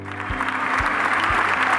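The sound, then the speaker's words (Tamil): Students applaud a classmate: a continuous patter of clapping with a few heavier claps standing out, steady and fairly loud through the short stretch. “அனைவரும் அபிராமிக்காக நல்லதொரு கரகோஷத்தை”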